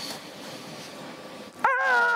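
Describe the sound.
A human voice imitates an upset chimpanzee with a brief, high, strained cry at the very end, after a stretch of low hiss.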